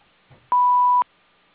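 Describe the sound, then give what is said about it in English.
A single answering-machine beep sounds, a loud, steady electronic tone lasting about half a second before cutting off cleanly into silence. “Hello, we are not available now. Please leave your name and phone number after the beep.”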